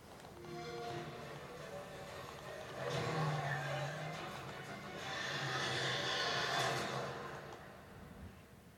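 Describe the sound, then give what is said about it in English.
A car engine revs in a State of Decay 2 video game trailer. Two broad, rising swells of engine noise sit within a dense, busy mix. “Alright, State of Decay 2 trailer. Xbox exclusive, baby. Cars, guns.”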